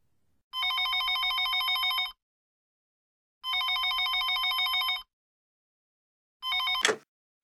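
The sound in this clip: A telephone bell ringing for an incoming call: two full bright, rattling rings separated by a silent pause, then a third ring cut short by a sharp click as the call is picked up.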